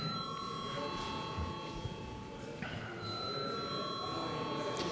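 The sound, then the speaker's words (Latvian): The chair's electric bell rings continuously in a parliament chamber to call deputies to a vote. It is a steady, high, shrill tone over a low murmur of voices and room noise. “lūdzu zvanu”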